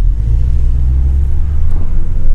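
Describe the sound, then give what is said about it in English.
A rental car's engine running: a steady, loud, low rumble and hum that holds even without revving, with no talking. “Oh, this car. I have a nice rental car.”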